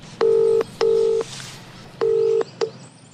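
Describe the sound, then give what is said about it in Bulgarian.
A telephone number is dialed on a touch-tone keypad: four clear beeps. The first three are evenly sustained, with a pause before the third, and the fourth is a brief blip. No one speaks. “Обаждам се на един от верните си приятели, Тодор.”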